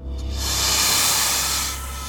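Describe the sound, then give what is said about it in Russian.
A snake hisses as it darts from a cabinet across the floor: one loud, breathy, unbroken hiss lasting about two seconds, which swells and then eases off slightly at the end. “Внезапно раздалось шипение, и один из бойцов отскочил в сторону. Темный силуэт змеи метнулся от шкафа по полу в сторону выхода.”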